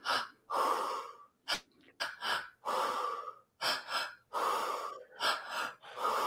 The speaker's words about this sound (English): So you'll take an inhale through your belly, an inhale through your high chest, and out through the mouth. So it looks like this.